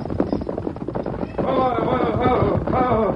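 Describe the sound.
Horse hooves clattering as Silver the horse is reined to a halt, a rapid, steady clip-clop that grows louder and denser partway through, with other noise mixed in.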